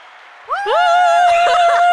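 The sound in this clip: A canned sound effect of a live audience cheering: loud, high whooping voices rise sharply in pitch, then hold steady for more than a second.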